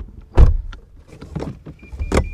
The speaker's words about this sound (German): Wir steigen ins Elektroauto und fahren in Richtung Herkingen.